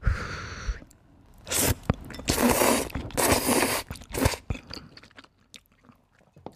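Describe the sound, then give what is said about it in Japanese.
Chewing and crunching as someone eats buttered pasta with salted fermented squid: irregular bursts of moist, crackly mastication, fairly loud and close, separated by short pauses, with no talking. “じゃあ一緒にイカの塩辛といただきますね。”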